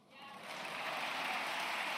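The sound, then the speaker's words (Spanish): Applause fills a session of the Spanish parliament, swelling within the first quarter second into a dense, sustained wash of clapping that holds steady to the end. “Aplausos a la justificación de Alberto Núñez Feijóo de por qué no se renueva el Consejo General del Poder Judicial.”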